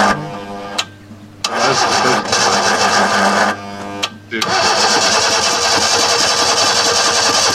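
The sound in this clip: A manual-transmission car's engine cranks and fails to start, at risk of flooding. The starter makes a rhythmic, whirring churn in several bursts separated by short pauses, and the final burst runs longest without the engine catching.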